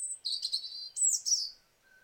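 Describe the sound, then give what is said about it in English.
A robin sings sweet, high-pitched warbling phrases: two quick bursts of twittering notes separated by a short pause, then a faint thin note trails off alone at the end. “And robins have quite a similar structure to the song. So if I play that, so it's got that, wait for it.”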